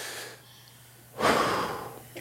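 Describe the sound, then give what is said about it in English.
A deep breath taken in and let out, heard as a long, loud, airy rush of breath with a fainter breath sound before it, and no talking. “I want everybody to take a deep breath and then let it out.”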